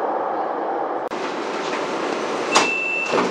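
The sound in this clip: Beijing subway Line 10 train arriving at Xiju station: a steady rumbling roar broken by a sharp click partway through, then a thin, high brake squeal near the end.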